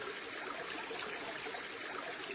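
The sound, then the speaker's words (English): Bubbling hot tub water, a soft, even hiss of churning water that carries on without pause and stays faint throughout. “Presumably you can tell without seeing me that I'm recording this in all of my stark naked hairiness in a bubbling hot tub.”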